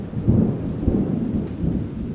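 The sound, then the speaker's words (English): Thunder rumbles through a lightning storm on a hot afternoon in New Orleans, a deep, continuous low roll with a few swelling surges. “A lightning storm rumbles through the sky on an oven-hot afternoon in New Orleans.”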